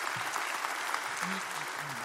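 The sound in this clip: A church audience applauds, a brief, moderately quiet burst of steady clapping lasting about two seconds, with faint voices mixed in.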